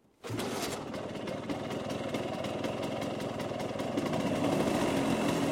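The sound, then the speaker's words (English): A 150 cc two-wheeled motor scooter engine kicks in abruptly and runs steadily, a continuous buzzing, rattling drone that holds loud and even to the end. “I will have you know, that is the sound of my scooter. It's 150 cc's of pure two-wheeled transportation.”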